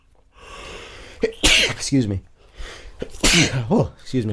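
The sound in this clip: Two sharp, explosive sneezes burst out a couple of seconds apart, each loud and breathy, with brief voiced sounds following them.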